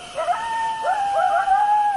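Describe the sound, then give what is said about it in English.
Desert coyotes howl in sliding, wavering tones that run continuously through this short stretch, with more than one voice overlapping and rising and falling in pitch. “There are coyotes,”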